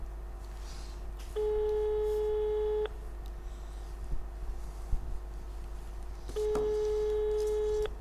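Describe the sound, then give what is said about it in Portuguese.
Telephone call tones on a phone line being dialled: two steady, sustained electronic beeps of about one and a half seconds each, separated by a long pause, over a low constant hum. “Vamos ligar ao Dr. Santana Lopes.”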